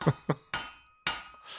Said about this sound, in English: That is the sound of a person in full plate just leaping 16 feet into the air and then crashing down back to Earth.